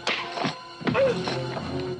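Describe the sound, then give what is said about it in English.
A slap across the face and then a punch to the stomach land as a few sharp, dull impacts, each a short thwack or thud over a faint background. “Yin slaps Braddock across the face, then punches him in the stomach.”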